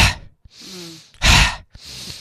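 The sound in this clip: Breathing exercise of deep inhales and forced exhales, several airy breaths in a row, one of them a loud, sharp, forceful blast of air rushing out, with no talking.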